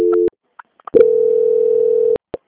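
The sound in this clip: Telephone tone during a call transfer: a short steady beep and a few faint clicks, then a long, even, mid-pitched tone lasting over a second, ending with a final click.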